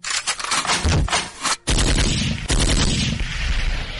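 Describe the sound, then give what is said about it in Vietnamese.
Machine gunfire in a loud, dense burst, fired upward toward an upper floor of a building with concrete floors: rapid overlapping cracks that break off briefly, then resume just as heavily. “đột nhiên nòng súng hướng lên tầng 4, xả một loạt đạn, sau đó xoay người lăn vào phòng.”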